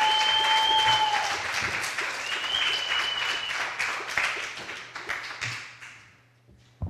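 Loud, sustained applause from a theater audience welcoming a comedian to the stage, dense clapping that swells and ebbs, then thins out and fades near the end.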